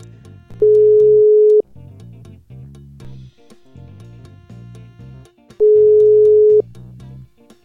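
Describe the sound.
Ringback tones of an outgoing telephone call: two steady, loud, one-second tones about four seconds apart, with continuous background music playing underneath.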